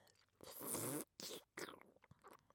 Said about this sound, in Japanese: それじゃ、皮を剥いていくぞ。